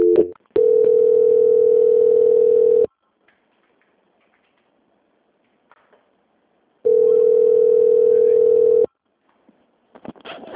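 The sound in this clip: Telephone tones during a call transfer: two long, steady, mid-pitched beeps of roughly two seconds each, separated by a long silence, with a few faint clicks and handling noises near the end.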